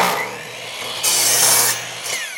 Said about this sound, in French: Ah, quelle belle scie à onglet. Ça, c'est un bon achat.